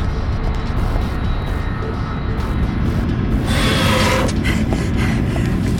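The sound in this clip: A spaceship lifts off on vertical thrust with a dense, steady roar and low rumble throughout. About two-thirds of the way in, a brighter hissing surge swells and then eases back.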